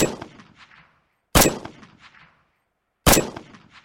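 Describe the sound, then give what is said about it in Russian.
Gunshots fired from a rooftop: three sharp, loud cracks, each trailing off in a metallic ringing decay, spaced about one and a half seconds apart with silence between. “Старик лежит на крыше одного из домов, каждую секунду совершая по несколько выстрелов.”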